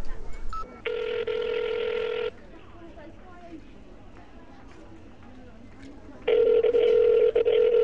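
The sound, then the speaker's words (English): Telephone tones as a call home is dialed: two long, steady electronic tones, one early and one at the end, separated by a stretch of lower, noisy background. “Call home? Yes. Thank you, dialing.”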